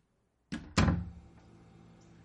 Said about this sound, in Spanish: Cierra la puerta.